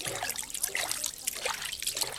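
Flowing river water, a radio play effect for the Orinoco River: a steady, moderately quiet trickling and burbling wash with no voices.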